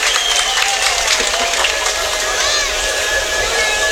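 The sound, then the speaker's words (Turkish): An audience claps in sustained applause at an event, a dense, even wash of clapping that holds steady for the whole stretch, with faint tonal sounds threaded over it. “Muhammed Ali Çizmen'e 2 milyon 650 bin lira bir alkış yapalım bakalım”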